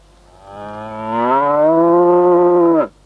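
Cattle lowing in a single long, loud moo, rich with harmonics. It swells in over the first second, holds a steady tone for about two seconds, then drops off abruptly at the end.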